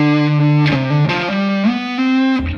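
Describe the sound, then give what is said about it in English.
A heavily fuzz-distorted electric guitar solo holds sustained, buzzing notes that step between several pitches, loud and unaccompanied, with no voices. “I have this really fuzzed out, like, kind of guitar solo. It sounds a little like...”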